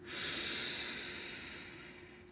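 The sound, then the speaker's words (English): A slow, breathy exhale from a breathing exercise swells quickly, then fades gradually over about two seconds as a soft, steady airy hiss with no talk. “Nice inhale. And drop your breath. And again, inhale.”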